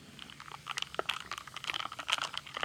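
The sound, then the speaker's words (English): Ice cubes stirred into a mojito full of lime, giving many quick, irregular clinks and crunchy clicks that run continuously and unevenly throughout, with no talking. “You give it a little stir. Mix up the ingredients. You should stir that into the mic. Let everyone hear the ice.”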